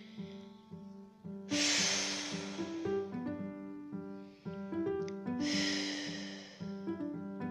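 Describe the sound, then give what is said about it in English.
Two long, deep breaths, each a broad rushing whoosh of air lasting about a second, heard over a soft sustained tonal background with no talk. “I'm going to take a few deep breaths.”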